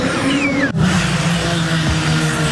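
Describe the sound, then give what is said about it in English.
IndyCar race cars roar on a street track at Markham, a loud continuous engine drone with a high whine sliding downward early on, a brief sharp dip, then the roar carrying on unbroken. “The sheer power of the cars, a big draw to the Honda Dealers Indy in Markham on Saturday for fans of all ages.”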